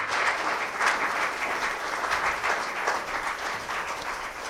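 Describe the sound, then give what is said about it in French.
A church audience applauds during worship, acclaiming Jesus: sustained, even clapping from many hands, moderately loud with gentle swells, continuing without a break for several seconds. “Est-ce qu'on peut acclamer Jésus pour sa présence”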